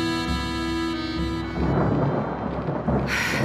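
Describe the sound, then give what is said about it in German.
Thunderstorm with rain: a broad, steady wash of rainfall with deep rumbling thunder swelling beneath it. A held tonal drone at the start fades out as the storm takes over. “Regen und Sturm.”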